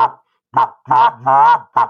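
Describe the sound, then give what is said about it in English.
Five short honks come from a goose call blown by a waterfowl hunter. Each honk is a harmonic-rich note separated by a brief pause. The fourth note is the longest and held steady. “If I pick up the goose call and just go,”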